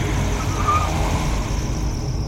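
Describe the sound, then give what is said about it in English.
A car drives fast along a road, giving a steady, dense rumble of engine and road noise that holds at an even level throughout, with no voices. “Drive faster. This time, we're getting out.”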